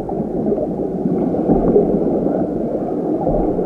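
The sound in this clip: A muffled underwater ambience forms a steady, murky low rumble, with soft gurgling and bubbling swirls throughout and no voices.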